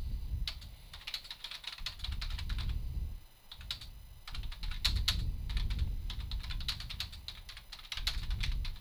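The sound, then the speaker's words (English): Fast typing on a computer keyboard, with many crisp key clicks in quick, uneven bursts. The typing runs almost continuously, with one short lull partway through. “That's about it. That's about it. That's about all I'll type.”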